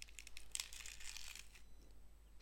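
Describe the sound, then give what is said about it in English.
The dry outer skin of a halved onion is peeled away with a faint, papery crinkling and tearing that lasts about a second and a half before fading to near silence. “Now, it's much easier to peel the outer layer off of that onion when it's not whole. So, okay, you can use a knife or your fingers. Just take the outside. Can you hear this? I'm just taking the outside”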